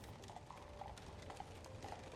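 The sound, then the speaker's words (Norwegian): Hooves of two horses pulling a carriage clop on cobblestones in 1869 Kristiania, a quick, steady rhythm of many soft beats. “til Norges Bank i Kristiania en dag i 1869 stanser en vogn med to hester spent for.”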